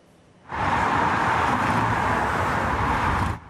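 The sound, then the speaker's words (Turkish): Road traffic from long queues of cars returning from the nine-day Kurban Bayramı holiday, heading toward Istanbul: a dense, even roar of vehicle noise that starts abruptly, holds steady for about three seconds, then cuts off. “Birçok kente iki gündür yaşanan yoğunluk bugün de devam etti. Yollarda uzun araç kuyrukları oluştu.”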